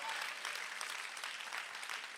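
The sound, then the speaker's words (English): A church audience claps in a continuous, dense rattle of hands, even in loudness throughout, with no talking over the applause. “Come on, clap like you understand what I'm saying.”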